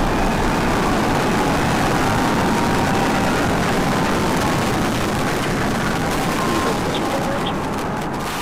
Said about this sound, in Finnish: Siinä nousee lentoon maailman suurin ja voimakkain avaruusraketti, SpaceX-yhtiön Starship. Sen ensimmäisessä vaiheessa on 33 voimakasta rakettimoottoria,